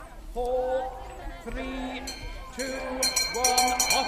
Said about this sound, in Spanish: Tenemos, por ejemplo, el Campeonato Mundial de Encantadores de Gusanos, que se celebra en Willaston, en Cheshire, y que suena así.